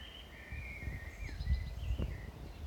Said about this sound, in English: Can you hear the birds singing, Reddit? That's the dawn chorus.